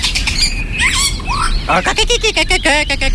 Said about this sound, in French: le joli Philoscopus colibita